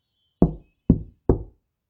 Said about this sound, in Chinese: 吉利一叩三响的敲门声